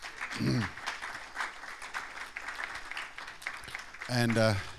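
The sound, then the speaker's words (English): Audience applause greets a speaker coming on stage at a morning church service, with steady clapping throughout and a voice heard at the start and again at the end. “so let's give him a hand as he comes this morning, Jamie”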